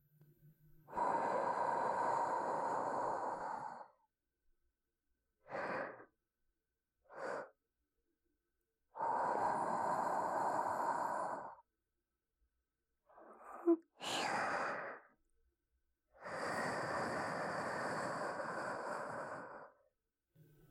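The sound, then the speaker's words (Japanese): Soft, close breaths blown into the ear in an ASMR setting: several long, airy exhalations of a few seconds each, separated by silences and short sharper intakes of breath. “よし、これで耳呼吸はしまいじゃ。”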